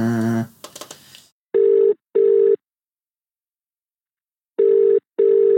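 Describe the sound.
A phone rings while a mobile number is being called: after a brief voice at the start, two double-ring bursts of steady mid-pitched tone sound, separated by a long silent gap.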